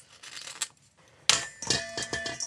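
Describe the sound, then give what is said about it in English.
A knife cuts the beards off fresh mussels: quiet clicks, scrapes and sharp taps of blade against shell, with a louder burst of clattering partway through and a few crisp knocks after it. “So all I'm doing with these guys is I am cutting off the beards. I am just cutting them with a knife.”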